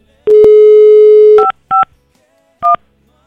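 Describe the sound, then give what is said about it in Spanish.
A phone number being redialled: a steady dial tone holds for about a second, then three short keypad beeps follow at uneven gaps. They are loud and clear, with no voices. “Okay, primer intento fallido. Vamos a volverla a marcar”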